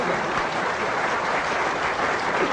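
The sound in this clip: Audience applause, a thick, continuous roar of many hands clapping together, steady and even in loudness throughout.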